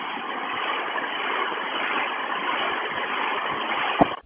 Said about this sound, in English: Yeah, it's from the back, though. I mean, I'm at Tiger Transit Center with the bus.